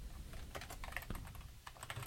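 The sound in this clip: Typing on a computer keyboard while HTML page code is entered. Many quick, irregular key clicks keep up a steady, faint patter throughout, with no talk.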